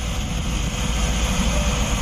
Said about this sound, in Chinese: 凌晨时分，湖北鄂州花湖国际机场进入全天最忙碌的时段，平均每2分钟就有一架来自天南地北的飞机降落。